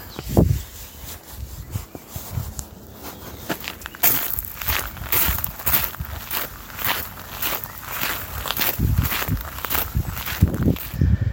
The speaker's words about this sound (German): Gut, weiter geht's. Die Treppe hinunter zur nächsten Station.